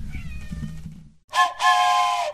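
A cat meows loudly and on its own: first a short call, then a longer, drawn-out meow that holds to the end.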